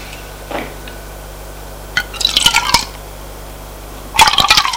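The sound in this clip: A drink is poured from a bottle into two glasses set on a small table. Two brief splashing, gurgling pours of liquid are heard, the second shorter, over a quiet, steady background hum with no talk.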